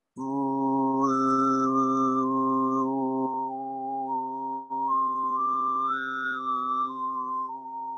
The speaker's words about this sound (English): So Kora, and then the toning that I was talking about, the overtoning, which sounds like this.